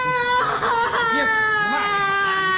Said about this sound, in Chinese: 别哭嘛！你别哭嘛！你别哭！